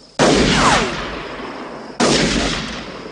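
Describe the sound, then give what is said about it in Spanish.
Two loud gunshots fired in a western film scene on open rural land. Each is a sharp crack followed by a long, rolling echoing decay, the shots about two seconds apart with no talk. “Dispara de nuevo.”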